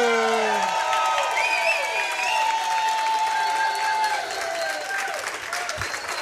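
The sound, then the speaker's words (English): Standing ovation for a Hall of Fame linebacker as he is welcomed: sustained crowd clapping and cheering, steady and loud before easing slightly near the end, with a voice speaking over it. “And a standing ovation for number 63.”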